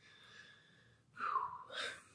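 A deep breath taken during a quiet moment of shared stillness at a worship gathering: two soft, breathy swells of air that rise above a faint steady background tone, with no talk over them.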